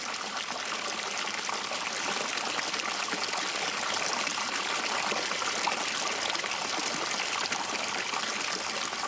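Fountain water features at the ornamental 18th- and 19th-century buildings of the Bourse in Bordeaux splash and trickle in a continuous, even hiss of falling water, fairly soft and unbroken, with no voices.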